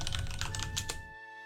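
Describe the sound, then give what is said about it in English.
Rapid typing on a computer keyboard as a name is entered: a quick, uneven run of many crisp keystrokes for about a second, then the clicking stops. “Let me type his name out.”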